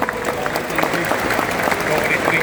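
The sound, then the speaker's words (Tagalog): An audience applauds a sponsor, Milo, for upgrading an athletes' dining hall: dense, steady clapping runs throughout, with speech alongside. “Palakpakan po natin ang Milo.”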